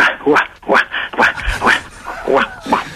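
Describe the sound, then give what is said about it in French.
A person imitates a dog, producing several short, rhythmic yapping barks in a steady series, each a brief voiced yelp. “tu veux que je fasse la chienne? Ah oui, jappe.”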